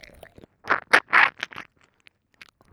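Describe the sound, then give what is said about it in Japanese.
Licking sounds of a tongue working to clear salt, heard as a few short, wet mouth bursts close together in the middle. Faint ticks and smacks trail off in near silence. “綺麗に舐め取ってあげるね”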